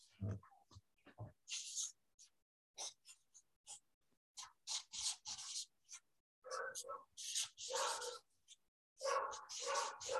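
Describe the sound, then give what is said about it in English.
Dogs bark in a home in many quick, scattered yaps and barks of uneven rhythm, fairly faint throughout the stretch. “Sorry about my dogs barking.”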